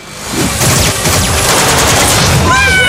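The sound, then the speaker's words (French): Rapid gunfire from an action film scene, a loud, dense fusillade of overlapping shots that runs almost without pause throughout. “Ça défouraille”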